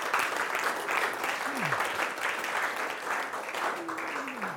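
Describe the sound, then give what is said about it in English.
An audience at a church gathering gives visiting guests a big welcome with a full, steady round of applause that stays loud and even from start to finish. “So I'm going to ask you to give them a big welcome because they don't always get that either. So how about you give it right up for them?”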